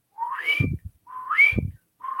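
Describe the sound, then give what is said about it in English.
A person whistles three rising notes, each sliding from low to high and briefly holding the top pitch, with short pauses between them. The third whistle is cut off. “You're going to face the east, and you're going to whistle three times. If you can't whistle, just make a tone. But you want to go from low to high.”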